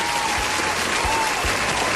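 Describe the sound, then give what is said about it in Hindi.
Brisk applause for a group of children after a timed quiz game: a short, dense burst of clapping with a few heavier low thumps mixed in. “तो भाई बच्चा party के लिए तालियां हो जाएं. तालियां बजाने वाले कहां चले गए.”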